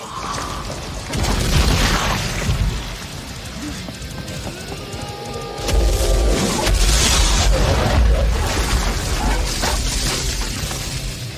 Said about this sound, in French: il tue Scorpion, qui explose telle une bombe.